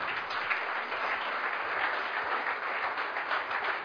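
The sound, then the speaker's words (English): An audience applauds a dining team called on stage, the dense, steady clapping sustained throughout with no talking over it. “Let's welcome them with a big hand.”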